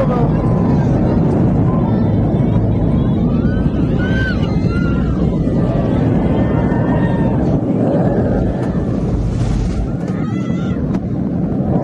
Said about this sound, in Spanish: La sensación de que este video es cuando va el avión desciende.